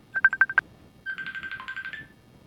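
Electronic telephone tones sound during a failing attempt to complete a call: a run of five short, bright beeps, then a longer warbling trill at a similar pitch. No voices are heard.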